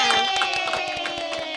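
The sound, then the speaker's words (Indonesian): Children clapping and cheering at the end of an English vocabulary lesson for kids: a quick, steady run of claps under sustained high-pitched voices. “Tepuk tangan dong. Yeay.”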